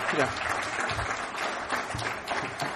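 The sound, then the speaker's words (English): Clapping rises from the audience at an Alcoholics Anonymous meeting, an even spatter of hands with a man's voice talking over it. “you guys picked that up real quick. In the States, we clap for that.”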